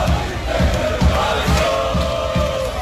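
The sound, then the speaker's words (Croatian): Croatian national football team supporters cheering and chanting at the Philadelphia Eagles' NFL stadium: a roaring mass of voices driven by a steady pounding beat about twice a second. “Ono što je uvijek isto, mnogobrojni navijači gdje god naša reprezentacija igrala.”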